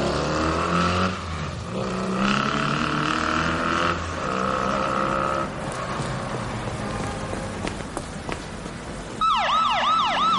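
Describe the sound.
A police car siren sounds as officers arrive at a crime scene in a Spanish street. Steady, sustained siren tones give way near the end to rapid, rising and falling wails, with no talking.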